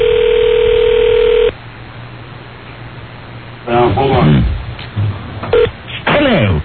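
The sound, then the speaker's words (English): A telephone's steady dial tone plays, then short electronic keypad tones sound as someone dials a hotline number. Talking is heard between the tones. “Dialing it up now.”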